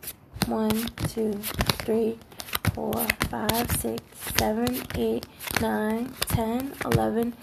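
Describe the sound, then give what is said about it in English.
Playing cards being drawn and handled during a card game with draw-card penalties. Crisp clicks, slaps and riffling come in quick, irregular bursts under nearly continuous talk. “4, so now you gotta draw 15 cards, brother.”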